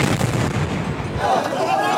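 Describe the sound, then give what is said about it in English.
Explosions from Israeli airstrikes on Gaza: a loud, dense, booming roar that fills the whole moment, its deep rumble thinning out toward the end. “Israel stepping up its aerial assault again, escalating airstrikes even further in the last 24 hours, pummeling Gaza.”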